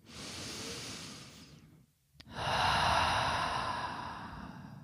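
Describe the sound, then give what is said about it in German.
A deep breath in, then a short silence, followed by a long, full exhale, breathed as a slow relaxation breath. Both breaths are airy and fairly loud, with no talk over them. “Atme jetzt dreimal tief ein und über den Mund aus.”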